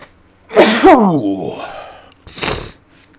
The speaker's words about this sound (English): hold on, I gotta sneeze